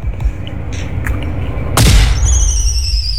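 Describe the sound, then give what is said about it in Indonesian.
A single sharp firecracker bang set off by children during holiday celebrations, bursting loudly over a low rumbling background and followed by high, squealing whistle-like tones. “Nah, itu suara mercon, Bu. Biasalah anak-anak itu.”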